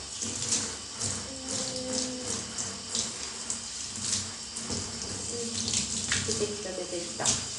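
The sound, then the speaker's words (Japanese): Warm water runs from a tap to wet an animal's fur, a steady splashing flow with irregular surges and spatters throughout. “ちょっとこのお湯をで毛を濡らして”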